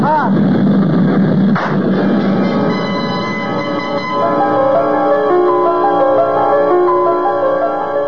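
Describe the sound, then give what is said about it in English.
A single sharp gunshot cracks out as a brief burst against a loud, steady droning of a plane engine that carries on throughout. “I tried to jerk my head away frantically at the last moment, but I could feel the bullet smash into my skull and then burst in a fountain of searing sparks.”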